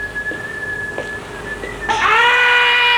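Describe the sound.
A steam pipe on a ship gives a thin, steady whistling tone with a few faint knocks, then abruptly swells into a louder, richer, harmonic whistle that holds to the end.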